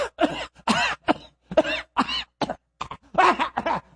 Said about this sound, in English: that's not really why I'm coughing like this